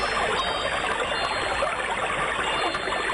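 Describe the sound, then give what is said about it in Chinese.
Water flows in a steady, continuous rush, an even hiss-like wash that neither swells nor fades and is heard alone without any voices. “这是水流的声音，”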